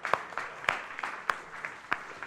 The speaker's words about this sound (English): You can clap.